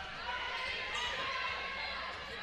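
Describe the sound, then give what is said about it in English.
Basketball dribbled during a women's high school game, with steady bounces lost in dense, continuous crowd noise. “She'll dribble to the right side.”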